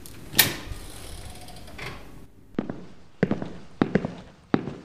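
A door to a room down a hall, where a shackled prisoner is held, is being opened: a few sharp metallic clicks and knocks, like a lock and latch working, follow a stretch of soft rustling noise.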